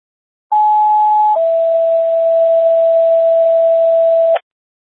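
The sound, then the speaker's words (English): Radio test tones sent to a station: a steady higher tone held about a second, then a long lower steady tone of roughly three seconds, loud and clean, cut off by a brief click. “stand by for test tones”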